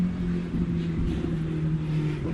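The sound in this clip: Steady engine drone of traffic on a highway, heard while a motorcycle passes by; a loud, continuous low hum with a strong pitched tone holds through the whole stretch with no break.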